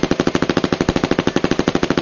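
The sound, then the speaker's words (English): Automatic gunfire from an Uzi submachine gun on rapid fire: a loud, unbroken burst of many sharp shots in a fast, even rhythm that keeps a steady pace to the end. “There was only a fraction of a second of stunned silence, although it seemed to be much longer, before the angry explosion of an Uzi on rapid fire.”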